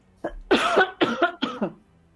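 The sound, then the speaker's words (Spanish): A person coughing in a quick series of several harsh, throaty bursts, some trailing into a raspy throat-clearing sound, with no speech around them. “Voy a toser, espera.”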